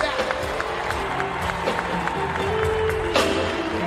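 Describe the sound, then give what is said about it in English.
Applause from an audience at a live stand-up comedy show in Los Angeles: a dense, steady wash of clapping and crowd noise with a voice talking over it. “Can I get a nice round of applause for my twin brother”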